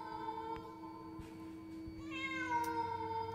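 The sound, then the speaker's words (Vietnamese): A stray cat meows at midnight in a dark garden, giving a drawn-out, wavering cry that grows louder toward the end, with no talk. “nó kêu ngoao ngoao vọng ở trong vườn. Nửa đêm nửa hôm, vườn thì tối như là cái hũ. Gớm nghe tiếng mèo kêu trong đêm đến rợn hết cả người.”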